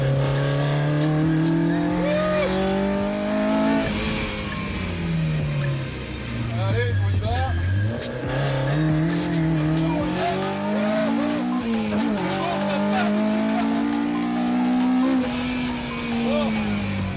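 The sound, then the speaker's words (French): A Mini racing hard around the Circuit de l'Ouest Parisien at Dreux, its engine note sweeping up and down through gear changes, with bursts of tire squeal as it corners, loud and continuous throughout. “Alors là, on est sur le circuit de l'Ouest parisien, on va pouvoir se lâcher un peu quand même.”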